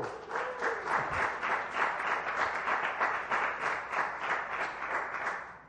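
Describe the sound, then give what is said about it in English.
A church audience clapping, many hands beating in a dense, even rhythm at moderate volume with no talk over it. “thank you for clapping, by the way.”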